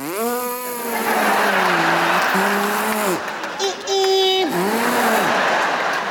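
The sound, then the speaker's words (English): A voice imitates a Prius accelerating hard onto the freeway, producing a whiny, engine-like hum that holds, dips and shifts pitch in steps, jumping to a higher strained tone briefly before dropping back down. “You jump on the freeway and punch, and it goes...”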